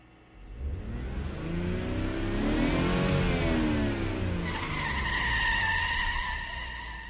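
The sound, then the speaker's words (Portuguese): A car engine revs hard as the accelerator is pressed, climbing to a loud peak and easing back slightly. A steady high whine joins in the later part, with no talking. “Aperto no acelerador.”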